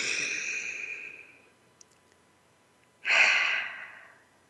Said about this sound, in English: Deep breath.